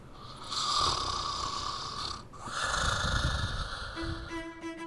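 Snoring from a tired person dozing off after a day of much walking: two long, rasping breath swells, fairly faint and slow, with a brief steady tone entering near the end.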